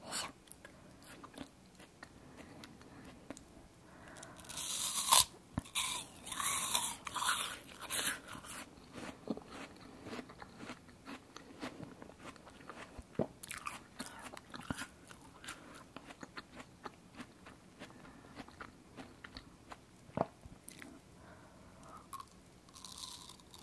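Crunching and chewing of an apple: many crisp bites and wet crunches, fairly faint, continue in a steady, irregular rhythm with no talk.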